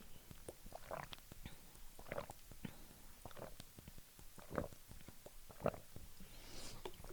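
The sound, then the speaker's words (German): Quiet mouth and throat noises of someone drinking about 100 millilitres: many small clicks and soft gulping swallows in an uneven rhythm, faint throughout. “Ich trinke aber vorher mal 100 Milliliter.”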